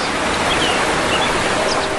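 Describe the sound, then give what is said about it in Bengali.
The Toilafang waterfall in the Matiranga hills of Khagrachari drops about fifty feet, making a loud, steady rushing roar of falling water with no breaks. “অর্ধশত foot উপর থেকে আঁচড়ে পড়ছে তৈলাফাং ঝর্ণার পানি,”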